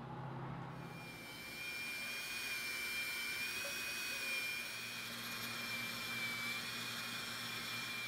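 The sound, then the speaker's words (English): Steady motor whine from a small belt grinder running a Scotch-Brite-like belt to polish facets on a solid copper piece. A constant high-pitched hum with a fine whistling tone holds evenly throughout, with no voices. “The last step is to polish each facet, and this little belt grinder really made it easy. I'm using a Scotch-Brite-like belt, which can polish each facet in just a few seconds.”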